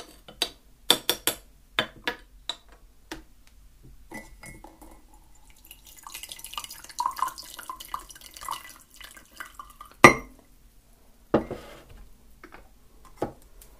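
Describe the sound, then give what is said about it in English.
A spoon stirs a cup of green tea, clinking against the sides in many light, irregular taps, with a soft swirl of liquid between the sharper knocks. “I think already it is time for some green tea, because I definitely need something. Let's just give this a bit of a stir.”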